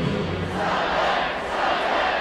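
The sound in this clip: Crowd noise at a Mother's Day minor-league baseball game at Polar Park: many voices blend into a loud, sustained roar of singing and cheering that holds steady throughout.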